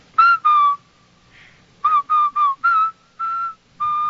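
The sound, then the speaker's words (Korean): Whistled tune from a film scene in which several teenagers join in: about eight clear, bright notes in two short phrases, separated by brief pauses, with no talk. “밴더가 난데없이 휘파람을 불기 시작하자 나머지 네 아이들도 곧 따라 봅니다.”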